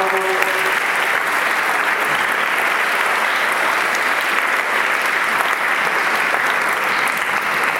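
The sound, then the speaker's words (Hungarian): An audience applauds at a school ceremony for students' exam results: dense, even clapping that holds steady and loud for about eight seconds. “Gratulálok nektek, és meg lehet tapsolni ezt a”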